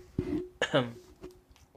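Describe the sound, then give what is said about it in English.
A short, low burp rises out of brief throaty vocal noises, faint and over within about a second. “I just had to burp there for a moment.”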